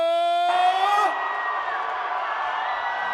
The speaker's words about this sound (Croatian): Da vas čujemo, najveći vrisak za našeg kralja